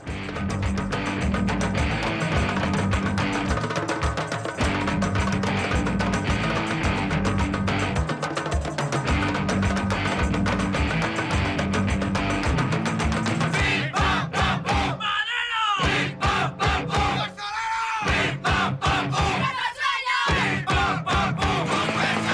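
A loud, dense song with shouted, crowd-like gang vocals plays on a combative-music radio programme. It runs without pause until a few brief drop-outs near the end.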